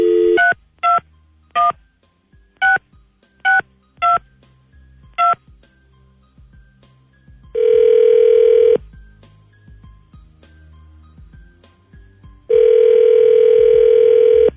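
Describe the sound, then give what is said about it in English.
A telephone dialing a random number: a string of short, sharp keypad tones in quick succession, then after a pause two long, steady ringing tones separated by silence, with no voices. “Dialing at random.”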